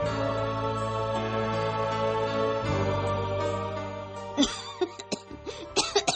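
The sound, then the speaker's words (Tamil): A mother who has been coughing for a long time without medicine lets out a few harsh coughs in the latter part, over a sustained musical drone. “என்னம்மா ரொம்ப நேரமா இருமிக்கிட்டு இருக்கீங்க, மருந்து சாப்பிடலையா?”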